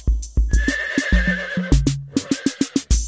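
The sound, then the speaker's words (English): A horse whinnies in a long, wavering, high neigh, carried over many sharp clip-clop hoof strikes that keep a steady rhythm to the end. “H is for horse.”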